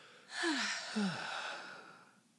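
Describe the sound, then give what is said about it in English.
A single long, deep breath drawn and released, a soft breathy rush lasting about two seconds with brief low voiced, sigh-like tones near its start, then fading out. “How about a deep breath? A deep breath.”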